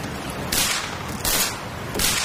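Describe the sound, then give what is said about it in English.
Gunshots in a radio drama: three loud bursts of noise at fairly even intervals, each rising sharply out of a constant background rush. “Did you see that? That crazy fool shot at me. You shot at me!”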